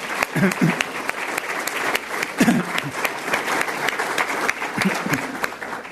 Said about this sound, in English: I want to give a round of applause.